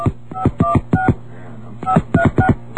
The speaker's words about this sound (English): I think I dialed the wrong number.